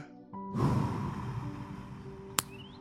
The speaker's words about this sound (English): Let's take a deep, relaxing breath.